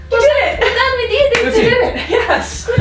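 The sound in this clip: Hands slap together in high fives among a group of players celebrating during a Dungeons & Dragons game. The sharp smacks sit under loud, excited voices and laughter throughout.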